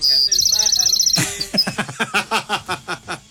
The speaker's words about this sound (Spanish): ¿Y ahora por qué los pajaritos?